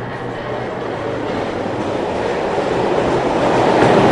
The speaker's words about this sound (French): De l'autre côté, t'as la voie ferrée, avec les horaires fixes de départ et d'arrivée, et le chemin des rails toujours le même.